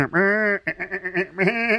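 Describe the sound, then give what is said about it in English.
A person imitates sheep bleating, voicing a few nasal, wavering bleats in quick succession, the first long and steady, the later ones shakier and trembling. “I don't know if making sheep noises helped there.”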